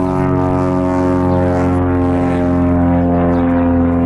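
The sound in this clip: Steady droning hum of an airplane flying near an airport in Ohio, a constant engine tone with strong, even harmonics that holds unchanged for the whole span, with no voices.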